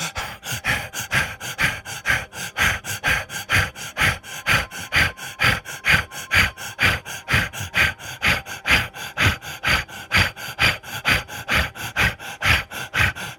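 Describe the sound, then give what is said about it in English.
Rapid, forceful rhythmic breaths during a guided breathing exercise, a steady, even run of sharp breaths about two per second, continuing alone without talk. “Again, breathe in and out of the root.”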